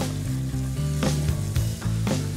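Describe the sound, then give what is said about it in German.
Chicken sizzles loudly as it fries in ghee with cumin, ginger and turmeric. The frying hiss is steady and continuous, broken by a few sharp crackling or stirring bursts. “Da kannst du auch noch mal Ghee reinmachen. Da brate ich jetzt ein bisschen eben die Hähnchen an.”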